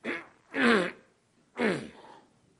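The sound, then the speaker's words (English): A voice imitates throat clearing by someone with a cold, making three rough, raspy bursts: a short first one, then two longer, fuller ones separated by a brief pause. “my friend, the one who had just been baptized, cleared his throat. I had not noticed that he had a cold. He went,”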